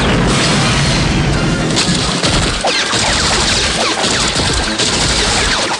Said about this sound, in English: Rambo rises from the water and fires on the guards, downing one of them. The explosive detonates, killing the rest.